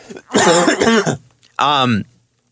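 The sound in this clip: Throat clearing and coughing from a person with pepper caught in the throat: two rough, voiced bursts, the first longer and the second shorter, both loud and with no talk around them.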